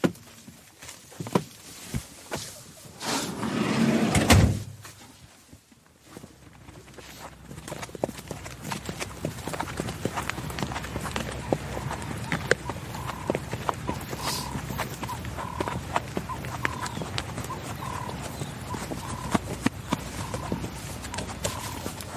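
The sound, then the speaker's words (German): Horses' hooves clip-clop steadily on a horseback ride. A loud gusty rush comes early, then a long, even patter of hoofbeats continues at a constant walking rhythm. “In ein paar Tagen steht aber unsere Reitsafari in Botswana an, weshalb wir einen Ausritt gebucht haben.”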